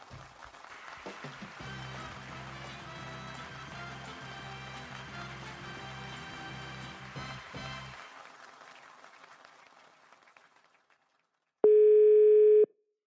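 A telephone ringing tone on a call sounds once as a steady, mid-pitched burst of about a second, alone, after an earlier passage of music fades out.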